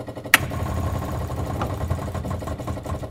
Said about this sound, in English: So I'm going to energize this. And then I'm going to turn on the fuel pumps.